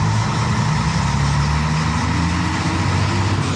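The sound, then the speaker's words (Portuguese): A bus pulling out, with a steady low engine rumble that drones at an even, loud level throughout and does not clearly rise or fall. “Saindo aqui mais um ônibus.”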